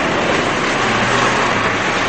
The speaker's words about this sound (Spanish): El convoy hace su entrada en un campo de prisioneros, rodeado por bosques de abetos.